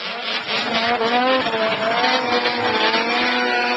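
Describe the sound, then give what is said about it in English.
Snow machines race in the Alcan 200 road race near Haines, Alaska, on a rough track with sparse snow. Their engines give a loud, sustained high-revving whine that holds steady throughout. “temperatures and sparse snow set a rough track for the 42nd annual Alcan 200, the longest snow machine road race on the continent. The ride took place on Saturday outside of Haines.”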